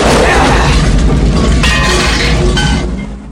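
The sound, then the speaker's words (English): Car and motorbike exploding in an action film, a loud, continuous, billowing roar of blast noise that holds steady before dying away at the very end. “The car and bike go up in a spectacular billowing explosion.”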